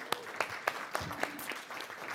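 An audience in a church service applauds to welcome a scripture reader: faint, scattered hand claps in a loose, light rhythm.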